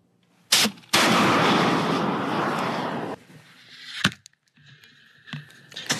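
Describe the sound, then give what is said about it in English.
A Javelin shoulder-fired anti-tank missile is fired: a sharp bang, then a loud, sustained roaring rush lasting about two seconds that cuts off abruptly. A few sharper cracks and quieter clatter follow. “These are shoulder-fired, very easy to use anti-tank missiles. They're extremely effective, and we've already seen them used in combat by the Ukrainians against the Russians.”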